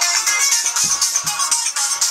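A phone ringtone sounds as a caller rings back: a loud, bright, warbling melody that repeats in quick pulses throughout, with no voices.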